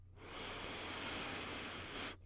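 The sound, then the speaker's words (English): A single deep breath drawn in: a steady, airy hiss of inhalation lasting about two seconds, soft and alone over a faint low hum. “Deep breath in.”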